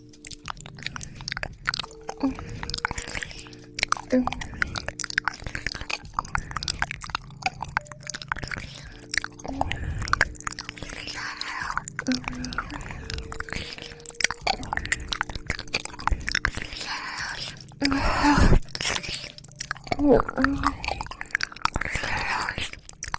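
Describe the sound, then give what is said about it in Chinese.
Chewing and eating steamed meat buns: many soft, wet bites and smacking chews in an uneven, continuous rhythm, with occasional crunchier clicks. “好久没有尝到这么好吃的肉包了。”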